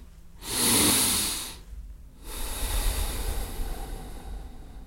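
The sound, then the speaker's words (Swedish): A deep breath: a long, loud rush of air swells and fades, then after a short gap a steadier, sustained breathy hiss continues to the end, with no talking. “Jag drar nämligen ett djupt andetag och det kommer jag dra med hela svenska folket.”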